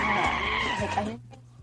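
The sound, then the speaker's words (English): Tyre squeal from a car turning around quickly: a loud, sustained screeching skid holds for about a second, then cuts off abruptly, leaving a low engine rumble underneath. “He keeps turning the car around.”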